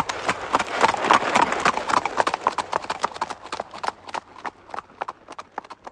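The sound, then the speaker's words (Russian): A horse gallops in a rapid run of clip-clop hoofbeats. They are dense and loud at first, then grow sparser and fainter toward the end. “где его ждала привязанная лошадь. Через некоторое время Джон Гоббс с нескрываемым ликованием в душе уже лихо мчался в сторону Лондона.”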